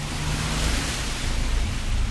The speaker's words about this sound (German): Es regnet. Ich renne. Der Regen prügelt mein Gesicht. Der Wind beleidigt mich, steht mir im Weg.